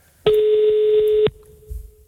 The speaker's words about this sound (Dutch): Dus we gaan nu eens even bellen.